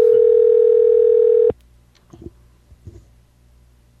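A telephone ringing tone on a call: one loud, steady, unbroken tone lasting about a second and a half, then cutting off abruptly, followed by a few faint clicks on the quiet line.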